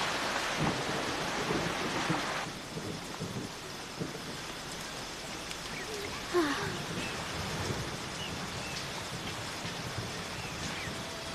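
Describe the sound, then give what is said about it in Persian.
Steady rain falling during a thunderstorm, a faint continuous hiss with low rumbling thunder underneath and a few soft knocks. “حالا با این بارون چی کار کنیم؟ خب میباره دیگه.”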